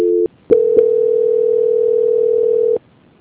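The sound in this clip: A telephone tone during a call transfer: a short electronic tone, a brief gap, then one long, steady, mid-pitched tone of about two seconds, loud and alone, ending abruptly.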